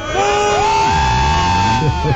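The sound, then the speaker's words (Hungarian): Loud crowd cheering with sustained whoops and shouts, held steady for about two seconds with a few wavering pitches. “Jé, a tömeg tapsol!”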